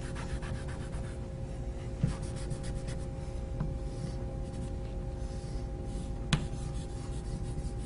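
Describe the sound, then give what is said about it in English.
Blue marker being erased from a drawing, a faint dry rubbing with quick scrubbing strokes early on and a couple of sharp taps, over a steady low hum. “I need to erase some of the blue.”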